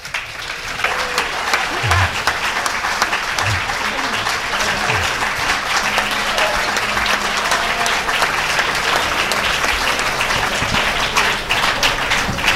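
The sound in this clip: An audience applauds to welcome musician Benny Golson at an evening performance, dense and loud clapping that stays steady and sustained throughout without letting up.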